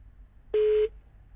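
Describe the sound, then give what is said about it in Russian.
One brief telephone tone sounds during an outgoing call, a steady, single-pitch beep lasting about a third of a second against near silence. “А мы пытаемся дозвониться до Сергея, сына Михаила Хачатуряна.”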